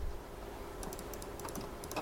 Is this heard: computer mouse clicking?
yes